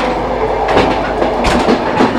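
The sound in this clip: A moving passenger train in Russia rumbles along with a steady, loud low roar and rhythmic clickety-clack of wheels over rail joints, with no talk over the continuous noise.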